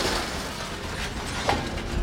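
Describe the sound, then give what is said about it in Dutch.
Heavy machinery as a crane feeds scrap metal into a large metal-cutting machine that shears iron: a steady, dense mechanical rumble and grinding clatter, with one brief louder knock partway through. “Ondertussen, 10 minuten rijden verderop, is een kraan bezig metaal in een grote machine te proppen.”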